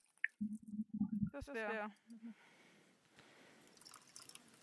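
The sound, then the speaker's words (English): Thirty milliliters of cold water are poured into a mixing container, a soft, steady trickling and splashing rush that follows a brief stretch of talk and runs on quietly to the end. “I'm supposed to take 30 milliliters of cold water. I prepared cold water. I put that into the mixing rod here.”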